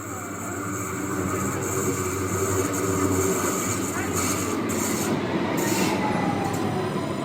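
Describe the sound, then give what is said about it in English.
A Stuttgart subway train runs with a steady, loud rumble of wheels on rail and a thin, high squeal over it, continuous for about seven seconds. “that was the sound of one of the Stuttgart subway trains.”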